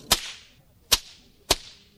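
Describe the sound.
Three sharp cracks from a handmade shepherd's whip, evenly spaced about 0.6 seconds apart. Each crack is a loud snap that fades quickly into a brief hiss, with no voices.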